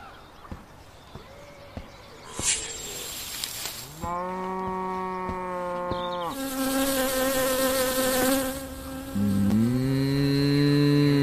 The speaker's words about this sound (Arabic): يوجد نحل في الحظيرة احترسوا اركضوا بأقصى سرعة